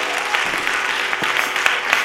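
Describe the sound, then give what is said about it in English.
A church audience claps for the choir as it comes forth, giving a dense, continuous patter of applause at a steady loudness with a few sharper individual claps standing out. “Give the choir a hand clap of praise as they come forth.”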